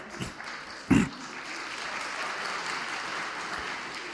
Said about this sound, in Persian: من نفهمیدم برای کدوم قسمتش دست دادی.